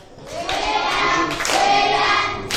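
Applause from a church gathering swells quickly into a dense, steady clatter of many hands, holds for about two seconds, then eases off.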